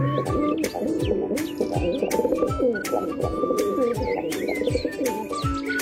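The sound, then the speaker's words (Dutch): A female pigeon coos softly over and over in low, slightly plaintive notes that droop in pitch, while other birds chirp lightly behind it. “Ja, het vrouwtje kan ook heel mooi roepen, hoor. Van de duif. Heb je dat ook? Een heel mooi zacht, een beetje klagend geluid.”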